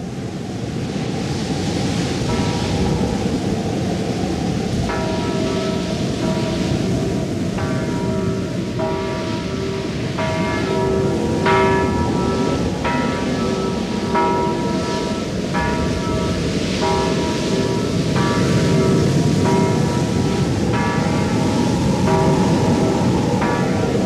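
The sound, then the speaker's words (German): A single church bell, rung by pulling its rope, tolls repeatedly at a steady rhythm during a flood, its clear ringing tones only partly audible above a loud, continuous roar of rushing water. “Er rennt zur Kirche. In den Turm. Packt den Strick der einzigen Glocke, um die Bauern der weit verstreut liegenden Gehöfte wachzumachen.”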